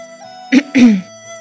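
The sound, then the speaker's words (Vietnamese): A dry cough comes as two short, rough bursts in quick succession, the second longer and throatier, over a faint, steady background tone. “Ho khan một tiếng, Hiên Viên Kiệt”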